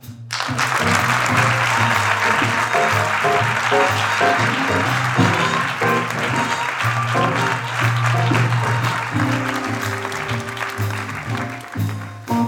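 Loud, sustained applause from a ticketed audience welcomes Denmark's culture minister onstage for a live interview, with band music playing underneath throughout.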